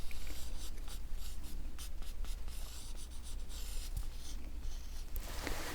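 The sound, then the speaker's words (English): Eyebrow shapes are drawn onto skin during a brow waxing and tinting session, a faint, dry scratching of many quick, short pencil strokes in a steady, uneven rhythm with no talk. “just like that. And I'm going to connect them just like that.”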